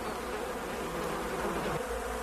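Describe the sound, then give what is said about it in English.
Bees buzzing in a continuous, even drone that holds steady throughout, with no voices. “Hello, bees. You can't hurt me. I'm invincible.”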